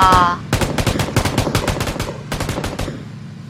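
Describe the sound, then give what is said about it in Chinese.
Automatic gunfire in a video game: two loud bursts of rapid, sharp shots, the first long and the second shorter after a brief gap, ending with a fading tail. “哎呦开枪的呀。 哎呀，为什么会在那里开枪呀？”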